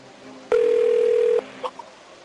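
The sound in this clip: A telephone being dialed, heard as a single steady electronic tone lasting under a second, followed by a few faint short clicks.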